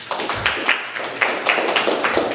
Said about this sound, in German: Einen großen Applaus für die Mandy, bitteschön.